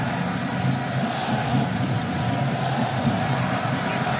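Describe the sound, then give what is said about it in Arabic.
Iraqi fans and expatriate supporters cheer hard at a football match against Norway, a steady, dense crowd roar that holds without a break. “الجمهور العراقي والجالية تشجعون بقوة.”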